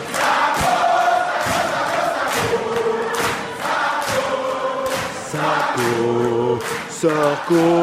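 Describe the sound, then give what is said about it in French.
Crowd welcoming Nicolas Sarkozy at the University of Abidjan, loud throughout: massed voices shout and chant in rhythmic pulses with sustained tones, building into higher repeated chanted notes toward the end. “Non, c'est l'accueil de Nicolas Sarkozy à l'université d'Abidjan.”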